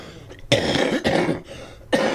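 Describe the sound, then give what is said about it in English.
Three harsh coughs from a person with a week-long rotten cough, sharp loud bursts at uneven intervals with brief quiet gaps between them and no talking. “I've gotten this rotten cough here this last week, and I'm trying to kick it.”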